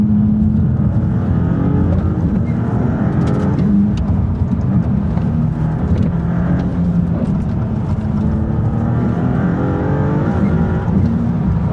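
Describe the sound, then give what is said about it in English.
Car engine and exhaust under way, a loud, unbroken low drone whose harmonic tones bend up and down as the revs shift, with no talking over it. “Just let me enjoy the sound of the engine and the exhaust.”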